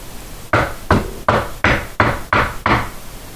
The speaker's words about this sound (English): Did you hear me knocking there?